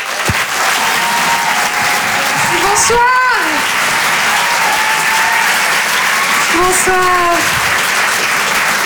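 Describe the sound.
A comedy club audience at the Apollo Théâtre in Paris applauds a comedian coming on stage. The clapping stays loud and steady throughout, with a couple of brief whistles or whoops rising above it.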